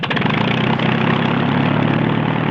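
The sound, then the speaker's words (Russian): A small airplane's engine runs with a loud, steady droning roar and a dense low rumble that holds even and unbroken from start to end. “Самолет заводится и взлетает.”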